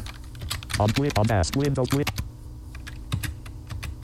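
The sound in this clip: Computer keyboard keys pressed to send Control Delete to a Windows NT 4.0 virtual machine: a few sharp clicks, with a voice speaking briefly in the middle.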